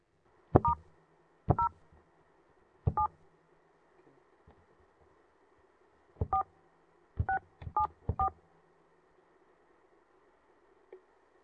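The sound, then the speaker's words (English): Telephone keypad DTMF tones keying in a conference access code: seven short dual-pitched beeps, three spaced well apart, then after a pause four in quicker succession, with faint line hiss between them. “Please enter your pre-assigned access code, followed by the pound sign now.”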